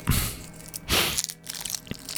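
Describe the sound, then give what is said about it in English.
Chewing of crunchy food, heard as irregular crackling crunches and bites with one louder swell midway, alone without talk. “You can hear me chewing”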